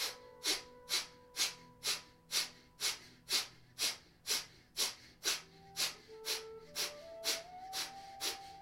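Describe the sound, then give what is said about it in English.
Forceful nasal exhales in a breathing exercise, each pulling the belly in. The sharp bursts of breath repeat many times at a steady pace of about two per second over faint sustained musical tones. “can feel that gentle contraction as the belly pulls back as you exhale forcefully down your nose.”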